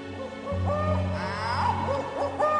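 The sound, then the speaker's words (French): An owl hoots in the trees at night, a few soft, hollow calls rising over a low steady hum of background noise. “Je peux même entendre un hibou qui hurle dans les arbres.”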